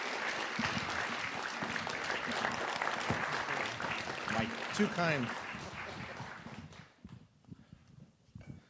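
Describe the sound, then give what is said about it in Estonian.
A church audience gives a speaker a warm round of applause. The steady clapping lasts several seconds, then fades, and a voice talks over it and keeps going after the clapping ends. “Nii et tervitame Miguel sooja aplausiga.”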